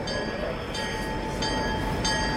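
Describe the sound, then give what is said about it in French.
Train platform ambience at Montreal's central station: a steady low rumble with a constant high whine, broken by a few soft hissing bursts. “Voilà, nous sommes sur un quai de la gare centrale ici à Montréal, un vaste endroit.”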